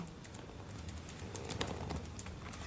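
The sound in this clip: Faint computer-keyboard typing as a message is written: many quick, light keystrokes in an irregular rhythm, heard alone with no talk.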